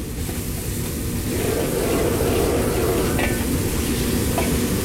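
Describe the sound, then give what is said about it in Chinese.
Sizzling and stirring of a stir-fry as purple ginger slices are tossed over medium heat while the sauce reduces: a steady, dense hiss that swells slightly partway through, with a few faint scraping ticks. “然后转中火收汁，翻炒几下之后加入剩余的紫姜片，”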